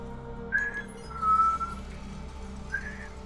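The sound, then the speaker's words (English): A person whistles three thin, high notes in imitation of a legendary whistling ghost from folklore. The middle note is held longer than the brief first and last, over a faint low hum. “El Silbon means the whistler, so when it's nearby, it whistles like,”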